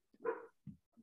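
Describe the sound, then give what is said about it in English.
Faint, muffled dog barks, three short woofs with the first one longest, separated by brief silences. “Sorry, my dogs are barking.”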